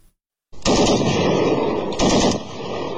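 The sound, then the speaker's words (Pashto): Gunfire and explosions in a clash between Afghan and Pakistani border forces along the Durand Line: a loud, dense roar of firing begins after a short silence and continues, with a sharper burst partway through. “دا څمو د وړاندې دی پر ډیورن کرخه د افغانستان او پاکستان د پولیساتو سرتیرو د ډزو د تبادلې یو صحنه ده. د ټوپک توغندیو او چاودنو لغګونو سره”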